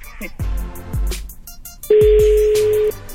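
Telephone dialing during a prank phone call: a few short touch-tone beeps, then a steady, even ringing tone of about one second, loud and alone.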